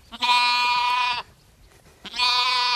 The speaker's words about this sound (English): Dr. Beth Jensen and her family adopted these orphan lambs. They're just a few of the dozens of animals on the farm